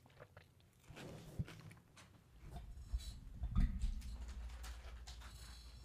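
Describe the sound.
Crunchy chewing of nacho cheese flavored chips, eaten two at a time, with a few faint bites and crunches that grow slightly louder toward the end.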